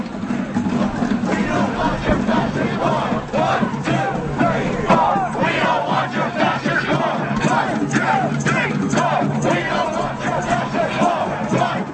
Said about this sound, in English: More than 1 million people took part in an anti-war protest in Indonesia's capital, Jakarta.